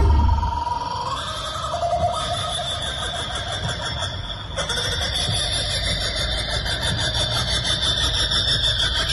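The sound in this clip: An 8-metre-tall kookaburra-shaped vehicle driving through Brisbane streets, giving off a loud, sustained, whinnying call over a steady engine rumble for about nine seconds.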